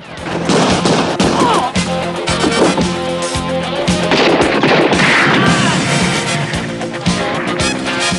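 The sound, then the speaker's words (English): Gunfire in a film street shootout: many rapid gunshots crack in dense, overlapping bursts like a fusillade, with a loud, continuous barrage of sharp reports running throughout. “Kersey dashes out into the street and blasts a punk. Shriker joins the shootout, shooting two punks off a roof.”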